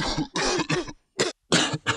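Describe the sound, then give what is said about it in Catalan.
An old man coughs at night: a series of harsh, raspy coughs that come in clusters, three close together, then a short one, then two more after a brief pause. “Una nit, el vell té molta tos.”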